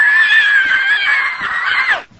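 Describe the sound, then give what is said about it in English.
A man imitates someone screaming and hollering with one loud, sustained, high-pitched scream of about two seconds that drops in pitch as it breaks off. “About that time, Johnny Doe jumped up in the back, boy. He's a-screaming and a-hollering. He runs down the aisle. He gets right on national TV going just like this.”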